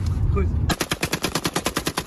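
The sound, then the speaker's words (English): Kalashnikov rifle fired in a gang video from Sweden, a rapid automatic burst of a dozen or so sharp, evenly spaced cracks that begins abruptly after a short stretch of low rumble. “In this video, posted on social media, young gangsters show off their Kalashnikov.”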